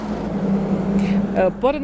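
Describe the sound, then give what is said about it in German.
A truck from a construction site driving past in an industrial zone beside a motorway, a steady low engine rumble with a droning hum throughout, and a voice briefly heard near the end. “Dieser LKW, der gerade vorbeigefahren ist, kommt von der Linglong-Baustelle.”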